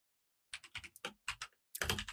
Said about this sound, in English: I'm typing a message.